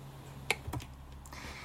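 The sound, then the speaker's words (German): A single sharp click sounds as a computer is clicked to set a marker. It is brief and crisp against a faint, quiet background. “Jetzt habe ich ähm, geklickt. Das bedeutet, ich habe mir ein kleines Markierungszeichen gemacht”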